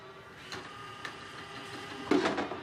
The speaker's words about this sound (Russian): Маленький робот-пылесос въезжает в комнату. Натыкается на край стенки, потом на металлическую полку